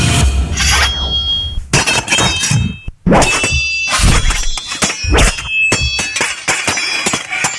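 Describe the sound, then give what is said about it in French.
Swords clashing in a fight: many loud metallic clangs and scrapes in quick succession, with ringing blade tones lingering between hits and a brief pause partway through. No voices. “ça me dit quelque chose et je dirais que c'est un son d'épée. Ben oui, ce sont des épées, bravo, c'est gagné !”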